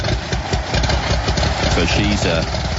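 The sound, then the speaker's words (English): A loaner plane's engine drones loudly and steadily throughout, a dense, rough roar with no clear breaks. Someone talks over it. “And I played the plane noise.”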